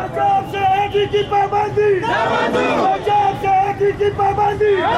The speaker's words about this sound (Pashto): هلته په سواد کې بیا هم ځایي خلکو نن په دې اړه مظاهره کړې ده مظاهره چیان وایي چې د دې بندیز له وجې په صوبه کې وړه کم شوي